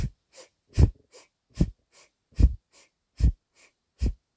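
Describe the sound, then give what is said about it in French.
Active yogic belly breathing, with forceful exhales and active inhales through the nose: six strong rhythmic breath bursts with softer breaths between them, in a steady, fast pulse and no talking. “Donc on va expirer, rentrer le ventre, mais inspirer, on va aussi amener le ventre à se gonfler.”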